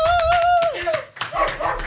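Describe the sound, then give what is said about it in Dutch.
Audience applause: a short burst of quick, crowded claps with a high, whooping cheer over them, settling into scattered claps and voices. “Dus, applausje.”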